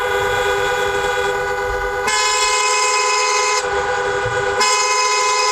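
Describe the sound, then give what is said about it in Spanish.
Car horns honk at the busy Tarajal border crossing between Ceuta and Morocco, where traffic queues at night. The blasts are loud, sustained and overlapping, held almost without a break and shifting in tone a few times over a low traffic rumble. “este es el sonido de la frontera del Tarajal.”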